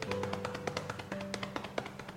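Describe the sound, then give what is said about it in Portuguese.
A cupped hand taps on the knee, giving many quick, soft pats in an uneven rhythm over a faint, steady tonal background. “Agora no joelho, a gente passa a mão também, a gente pode até dar umas batidinhas,”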